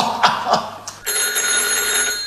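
A telephone rings at night, its steady, bright electronic bell tone starting about a second in after a few brief knocks and continuing unbroken to the end.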